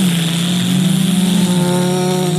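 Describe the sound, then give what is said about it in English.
A voice imitates a Sea-Doo personal watercraft engine revving: a loud, steady, buzzing drone that holds for about two and a half seconds. “Cranking up a Sea-Doo and being like,”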